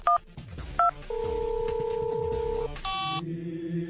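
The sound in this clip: A telephone number being dialed on a touch-tone phone: short dual-tone beeps, a long held tone, then further electronic telephone tones, with no talk over them.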